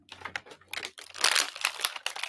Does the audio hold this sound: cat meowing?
no

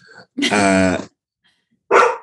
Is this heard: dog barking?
yes

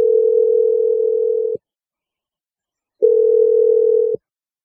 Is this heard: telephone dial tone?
yes

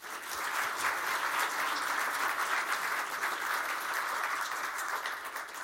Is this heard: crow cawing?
no

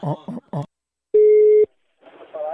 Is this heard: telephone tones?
yes

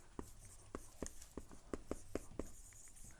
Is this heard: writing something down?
yes

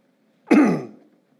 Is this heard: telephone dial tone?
no

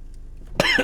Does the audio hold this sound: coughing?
yes

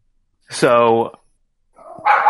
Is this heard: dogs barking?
yes

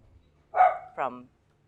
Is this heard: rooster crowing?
no

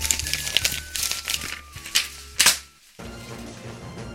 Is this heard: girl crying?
no

